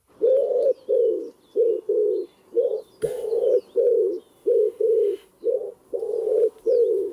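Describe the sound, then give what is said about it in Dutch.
Pigeons coo at a grandparents' home in a rhythmic run of many low, hollow coos, grouped in short pairs and phrases. Faint chirps from other small birds sit above them. “Het geluid van je jeugd. Ja. Waar hoorde jij deze duiven?”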